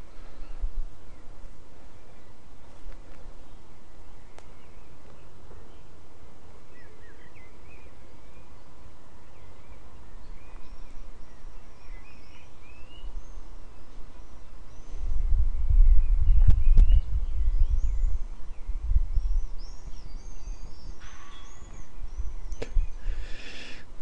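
Faint high squeaks from an allotment gate being shut, sounding like a bird call, recur several times over steady outdoor background noise, with a brief low rumble of road traffic partway through.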